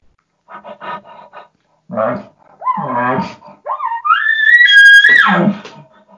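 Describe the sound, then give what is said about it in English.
A man's voice imitates a bull's tending calls: a few short breathy huffs, then throaty grunts, then a drawn-out, high, whining cry that swells loudly before it trails off. “What I'm going to do is I'm going to do huffs, grunts, and whines.”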